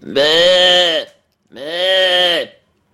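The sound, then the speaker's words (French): A human voice imitates a sheep bleating, in the English style, with two drawn-out nasal bleats of about a second each and a short pause between them. The bleats are loud and clear against silence. “Deuxième manière, plus ludique, on imite des animaux. On imite la brebis.”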